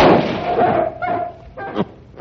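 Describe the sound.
A shotgun shot fired at a group: a loud blast opens the moment and trails off over about a second, followed by a few quieter, dull thumps.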